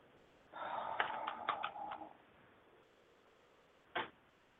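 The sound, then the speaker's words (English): A deck of Archangel Michael oracle cards is opened and handled, giving a quiet run of crisp clicks and papery rustles. After a short pause comes one more soft tap. “I'm just opening up my Archangel Michael cards.”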